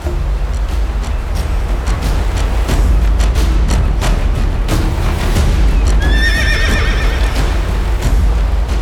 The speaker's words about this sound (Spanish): ¡Qué hermosa yegua negra! ¡Quieta, yeguita!